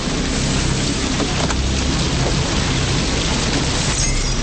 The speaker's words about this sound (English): Now, outside in a drenching rain, sheltered by Cameron's coat, they run to Trisha's car.